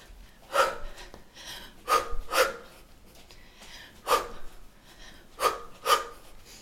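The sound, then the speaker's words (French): Loud, heavy breaths are forced out as if after running, during a movement session of hopping and shaking out the arms and legs. About six sharp, gasping breaths come in uneven pairs, with quieter pauses between them. “peut-être même de venir respirer assez bruyamment ici, comme si tu venais de courir.”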